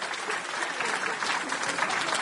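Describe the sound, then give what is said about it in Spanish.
Audience applause at a live comic performance, a thick, steady roar of many hands clapping that stays loud and unbroken throughout. “¡Aplausos! ¡Eso!”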